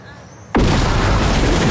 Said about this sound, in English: The men have their fingers in their ears as the bomb blows up on the other side of a wall.